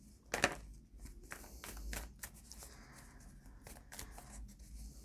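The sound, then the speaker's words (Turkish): Tarot cards being shuffled and handled as one is picked, a quiet run of soft papery flicks and light taps with a sharper burst near the start. “Şuradan bir kart daha seçeyim.”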